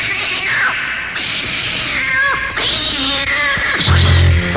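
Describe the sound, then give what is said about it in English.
A male pet cat meows several times in a row. The cries are wavering and drawn out, and they sit over a busy, fairly loud background. “Got me a kitty. Nice kitty. He sounds like this.”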